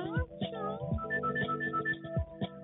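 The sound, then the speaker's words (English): A telephone rings for an incoming caller, its repeated short electronic tones sounding under people talking. “Oh, we got a caller coming in right now.”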